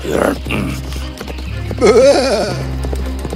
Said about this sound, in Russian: Громкое ржание моей лошади потревожило спящего великана